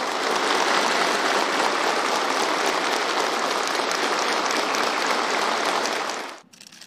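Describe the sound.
Warm applause from troops at an army base in Xi'an as officers and soldiers are received, a dense, even roar of clapping sustained for about six seconds before cutting off sharply.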